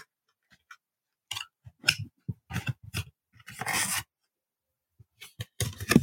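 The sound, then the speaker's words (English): Ripping open a pack of trading cards: a few short crinkling, tearing bursts, then a longer, harsher rip and more scattered crinkles near the end. “But first, I'm opening up the box right here. We're gonna rip a pack.”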